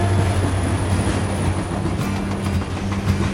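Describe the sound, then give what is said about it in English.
A freight train rolls slowly past a backyard, a steady rumbling roar with low humming tones that holds at an even level throughout. “They turn and watch a freight train roll slowly past their backyard.”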